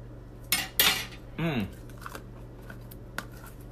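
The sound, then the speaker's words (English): A spoon working through a jar of unpasteurized raw Manuka honey from New Zealand, giving a few short clinks and scrapes against the jar, with faint ticks between them. “I just took a big spoonful of something called Wetter Spoon 100% Raw Manuka Honey. Product of New Zealand. Unpasteurized honey.”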